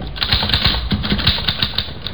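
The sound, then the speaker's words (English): A typewriter is being typed on, with rapid, irregular clacking keystrokes in a steady, fairly loud stream throughout. “Here's a typewriter. Your secretary uses one. Perhaps your son or daughter write their school essays on a machine like this.”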